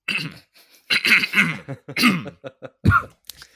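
A person coughs and clears their throat in a few rough, raspy bursts separated by short gaps, fairly loud and alone with no talking.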